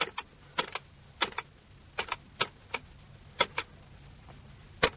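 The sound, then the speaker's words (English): Keys punched on a computer keypad to enter a tape number: a long string of sharp, dry clicks, often in quick pairs with short gaps between, over a faint, steady low hum. “What tape would you like to hear first? The first session you had with him. Right, I'll just punch out the number, like so.”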